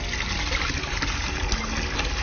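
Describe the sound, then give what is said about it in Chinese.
Aged vinegar being poured, giving a steady, continuous trickling splash of liquid for just over two seconds, with no talking. “你仔细听听这个醋落下去的声音。”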